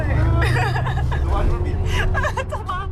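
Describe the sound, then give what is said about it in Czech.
Inside a special bus travelling from Rajhrad to Brno, a steady low engine rumble runs throughout beneath continuous chatter from several people. “v Rajhradu po nějakých 17 kilometrech nasedl do zvláštního autobusu, který mě odváží do Brna”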